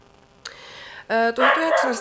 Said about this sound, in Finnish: Ja nyt sitten jos kuuluu koiran haukuntaan, niin se johtuu siitä, että ulkona haukkuu koira ja meidän koira ei siedä sitä.